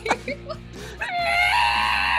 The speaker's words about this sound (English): as you can take in all of their screams and cheers as they chant for Snoop and Dog